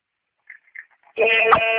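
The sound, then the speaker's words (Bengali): A car horn honking over a phone call into a radio show, a loud, steady blaring tone with a buzzy edge that cuts in after a few faint, brief noises on the line and keeps sounding. “মানে একটা গাড়ি phone করছে সে রীতিমতো horn বাজাচ্ছে”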